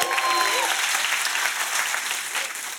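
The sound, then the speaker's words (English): Applause from a church audience at a Christmas Eve service, a dense, steady wash of clapping that holds loud and even throughout without breaks. “Can you make some noise for Jesus one more time? Come on.”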